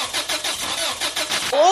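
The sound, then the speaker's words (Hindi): Car engine in a broken-down car, cranking over without catching: rapid, rhythmic churning pulses repeat steadily at a medium pitch for under two seconds. “Car खराब मतलब दिन और mood दोनों खराब, इसीलिए अपनी car को सही केयर दो।”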